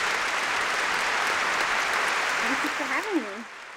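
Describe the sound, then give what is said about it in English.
Small talk-show studio audience applauding with steady clapping that thins near the end as a person briefly speaks over it. “That's just our small studio audience.”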